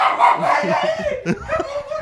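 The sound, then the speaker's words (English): A dog barks and yips in a quick run of short bursts, close and fairly loud, mixed with people talking. “there's a dog fucking barking by my leg”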